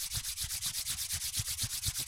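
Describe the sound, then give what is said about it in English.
Hands rubbing briskly together to warm them, many quick, even strokes of dry friction in a steady rhythm, alone and fairly quiet. “First, rub your hands together to get them nice and warm.”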